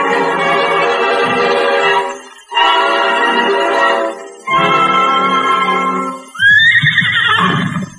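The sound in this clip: A horse called Silver neighs in four long, loud whinnies separated by brief gaps. The last one is higher and climbs in pitch.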